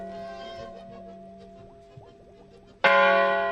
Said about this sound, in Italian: perché queste campane?